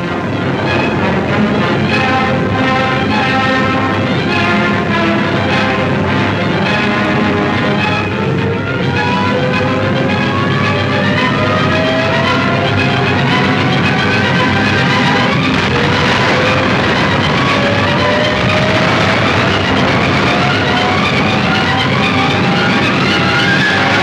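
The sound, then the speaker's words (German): Stuka dive bombers taking off to attack bunker lines northwest of Stalingrad: a loud, unbroken engine roar with whining tones that climb steadily in pitch throughout. “Stuka starten zum Angriff auf feindliche Bunkerlinien, die nordwestlich von Stalingrad den Zugang zur Wolga sperren.”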